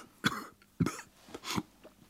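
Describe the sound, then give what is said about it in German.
A person gives three hollow coughs, fairly faint and spaced about half a second apart. Each is a short, breathy burst that dies away quickly. “Ich huste hohl.”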